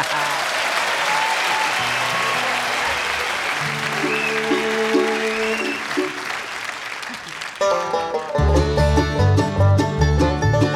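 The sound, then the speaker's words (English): Live audience applause welcoming a band to the E-Town stage in 1996: steady, dense clapping for about seven seconds, then the band's bluegrass music comes in loudly over the last few seconds. “And would you welcome back once again to E-Town”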